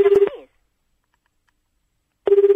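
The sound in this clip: Japanese telephone ringing tone on an outgoing call: a warbling, rapidly pulsed mid-pitched tone sounds briefly, stops for about two seconds, then resumes.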